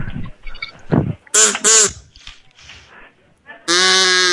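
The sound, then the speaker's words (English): Ducks quack: two short, harsh, nasal calls in quick succession, then a longer, louder, sustained quack at the end. Fainter, rougher vocal sounds come before them. “Those are the ducks.”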